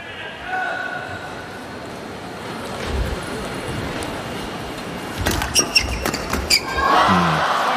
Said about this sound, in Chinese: 徐承宰发球，菲克里来接发，